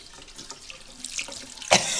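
Running water from a tap at a sink as hands are washed: a soft, steady splashing hiss that ends in a sharper, louder splash.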